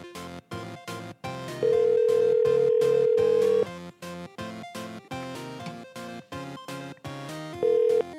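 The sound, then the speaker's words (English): An unanswered telephone rings, a melodic electronic ringtone of repeated short tones broken by a couple of long sustained beeps, heard alone. “Is this prick really not going to answer the phone now?”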